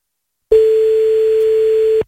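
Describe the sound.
A telephone ringback tone on an outgoing call, a single steady mid-pitched tone of about a second and a half that starts and stops abruptly, heard alone with no voices.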